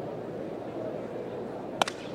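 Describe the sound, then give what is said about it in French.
A baseball bat shattering on a hit during a game: one sharp, quick crack with a brief second snap, standing out from a steady background roar. “Bâton fracassé. Et le bâton, là, aboutit, je dirais, une dizaine de mètres, là, au champ extérieur, derrière Ramon Bermasco.”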